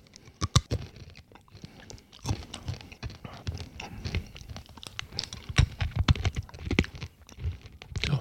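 Crunchy chewing of a coated roasted chickpea snack: many sharp crunches and bites in an irregular rhythm, fairly loud, with no talking.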